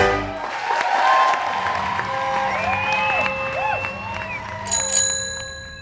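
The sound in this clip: A bicycle bell rings while biking at night around Fort Wilderness campground at Disney World. Near the end comes one brief, bright metallic ring, heard over a steady background of mixed tonal sounds.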